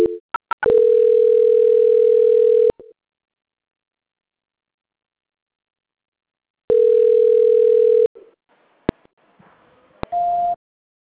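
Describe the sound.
Telephone line tones during a call transfer: a few clicks, then a steady mid-pitched tone for about two seconds, a long silence, a second similar tone, more scattered clicks, and finally a short, higher-pitched tone.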